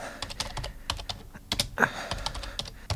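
Fingers type a search into a search engine on a computer keyboard, producing a rapid, uneven stream of many clacking keystrokes at moderate loudness.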